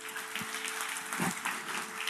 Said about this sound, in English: can we just give applause for these 10, 11 that raised their hand? Can we do that?